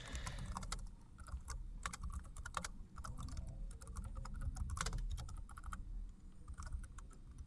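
Rapid typing on a computer keyboard while entering a code comment: many quick, irregular keystrokes clatter in bursts with short pauses, fairly faint.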